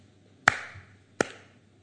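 Two sharp hand claps sound about three-quarters of a second apart. Each is a crisp smack with a brief decaying tail over a quiet background.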